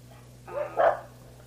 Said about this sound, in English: better stop those dogs, because they won't be able to hear anything on the tape